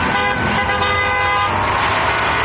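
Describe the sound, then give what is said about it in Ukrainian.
A column of construction trucks led by a KAMAZ moves off across the new road bridge over the Kerch Strait, a loud, steady rumble of engines with horn toots mixed in and no talk. “Позаду вишикувалася колона будівельної техніки. Автівки рушили.”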